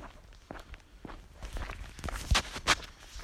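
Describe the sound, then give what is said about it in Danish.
Footsteps walk along a small path, several uneven steps that grow louder and heavier in the second half. “gå på den lille sti her, hvor vi går.”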